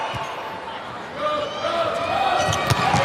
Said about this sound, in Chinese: 龚翔宇来发球